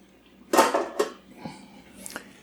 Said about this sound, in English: All right, I'm going to remove the lid.